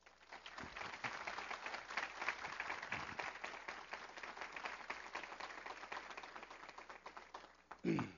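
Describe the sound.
Audience applause welcomes the Catholic debater at a debate, a dense, steady clatter of many hands that runs for about seven and a half seconds before cutting off with a brief louder burst at the end.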